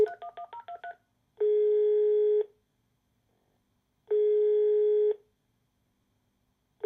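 A telephone number is tone-dialed as a quick run of short keypad beeps, followed by two long, steady ringing tones with a silent gap between them. The call is made in 2024 and goes unanswered.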